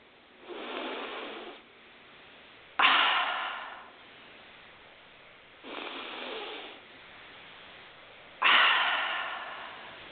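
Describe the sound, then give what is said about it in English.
Deep breaths during a guided session: four long, airy breath sounds, softer ones alternating with sharper, louder ones that start abruptly and fade, over a faint background hiss, with no talking. “And take three nice, deep, deep breaths.”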